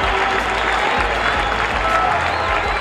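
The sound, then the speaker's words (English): A baseball crowd roars and applauds after a 1965 strikeout of Dick Groat, a dense, steady wall of cheering and clapping that holds at full strength from start to finish. “It all started 17 years ago when he struck out Dick Groat in 1965. Listen to the crowd.”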